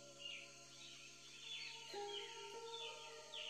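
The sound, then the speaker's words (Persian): Birds chirp in a Japanese tea garden beneath cherry blossom trees, giving faint, repeated high tweets that come and go over a steady soft background. “صدای پرنده ها رو میشنوین؟”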